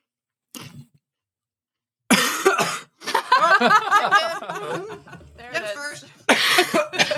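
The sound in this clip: Coughing caused by powder from a chili chip caught in the back of the throat: a few harsh, raspy coughing bursts in irregular clusters separated by short pauses.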